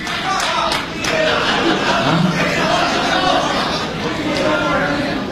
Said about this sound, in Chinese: 谢谢谢谢谢谢您的掌声鼓励，这么热情。